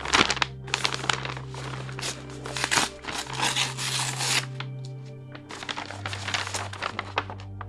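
Paper crinkles, rustles and tears as a brown paper envelope holding documents is opened. Dense bursts of crackling come in uneven waves over a faint low hum.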